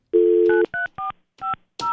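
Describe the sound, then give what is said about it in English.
A telephone number being dialled on an office phone: a short run of clear touch-tone beeps, each a brief steady electronic tone separated by short gaps, with no talk. “Who are you calling? I'm just going to see if anybody answers.”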